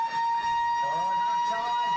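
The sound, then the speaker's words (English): A half-time siren sounds at a football match: a loud, steady, sustained horn-like tone that holds one pitch for the full two seconds, with voices murmuring underneath. “Siren.”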